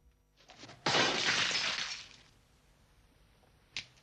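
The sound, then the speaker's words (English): A drinking glass thrown in a bar shatters in one sharp crash, followed by a roughly second-long shower of scattering fragments, then quiet and a brief final tinkle. “One Arm chucks his glass at Jack, hitting him on the thigh.”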